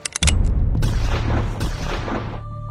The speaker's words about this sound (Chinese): 身后有枪声和追骂的声音，他头都没有回。